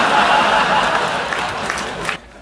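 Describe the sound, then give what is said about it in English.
Audience clapping at a comedy show: a steady, dense patter of applause that holds evenly, then cuts off abruptly just before the end. “Yeah, he's the one clapping in the back right there.”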